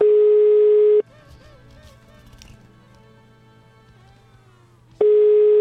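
Telephone line tone while placing a call: a loud, steady single-pitch tone holds for about a second, gives way to a much quieter stretch of faint low hum, then returns unchanged at the end.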